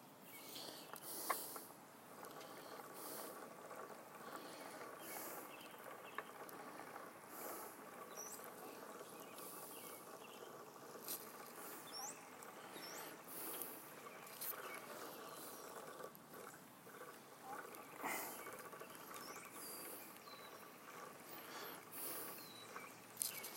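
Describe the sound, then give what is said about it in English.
A treadle spinning wheel spinning fiber gives off a soft, continuous mechanical patter with light, irregular clicks and rubbing, staying low and even throughout with no talk. “So I think I'm just going to two-hand it since we're using a treadle wheel.”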